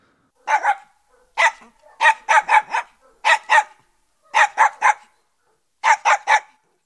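A puppy barks in high, sharp yaps, delivered in quick bursts of two to four with short pauses between, many barks in all and no other sound.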